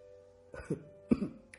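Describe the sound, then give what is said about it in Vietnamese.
Two deliberate, forceful coughs from a man standing beside someone on a phone call, each a short throaty burst with a brief second push, separated by a pause, with a faint trailing sound at the end. “Giang lão bản đang đứng bên cạnh của Lộc Hàm cố ý ho mạnh cho hai tiếng”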